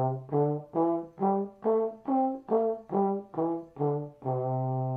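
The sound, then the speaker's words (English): A C pentatonic scale is played as a clean series of separate notes on a melodic instrument. The pitch climbs step by step, then descends back to the low starting note, which is held at the end. “I'm sure if I said play the C pentatonic scale, you could do it. It would sound like this.”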